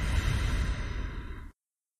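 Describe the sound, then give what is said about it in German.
A single long, deep breath during a guided breathing exercise, a soft, steady rush of air that fades and then cuts to silence. “Atme tief ein und atme tief aus.”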